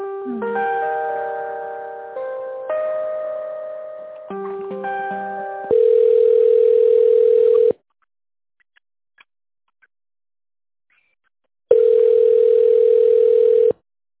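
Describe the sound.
Telephone ringback tones play while an office call is transferred to the finance department. Short repeated electronic tone phrases come first, then two long, steady, loud ringing tones separated by a few seconds of silence.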